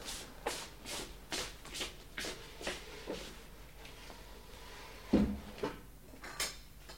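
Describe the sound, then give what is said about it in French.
A bottle rack scrapes as it is shifted across a cellar floor. A run of soft, dry scrapes and shuffles comes at a regular pace, then a heavier knock, then a few more scrapes, all fairly faint. “Oh! Le casier à bouteille se déplace.”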